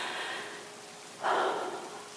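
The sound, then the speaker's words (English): A deep breath during a guided breathing exercise: a soft, steady airy hiss that swells into a louder rush of air midway, then tapers off slowly. “1, 2, 3, 4, 5, 6, 7, 8 in. 1, 2, 3, 4 out. 1, 2, 3, 4, 5, 6, 7, 8 Now one more breath.”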